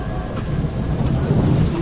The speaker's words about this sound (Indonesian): Karena memang hujan saat itu cukup besar.